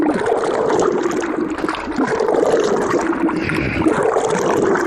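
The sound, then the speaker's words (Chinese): Water and paper pulp being stirred over and over in a mixing vat, a continuous churning, sloshing wash with gurgling swirls that stays loud and steady throughout, with no voices. “按比例加入清水，在搅拌桶中反复搅拌，最终化为细腻纸浆。”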